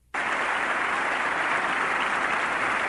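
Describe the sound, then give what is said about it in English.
Applause from a small number of people in a large hall: an even, dense wash of clapping that starts abruptly and holds steady at a fairly loud level to the end, with no voices. “It does sound like it's somewhat of a large hall with not many people clapping,”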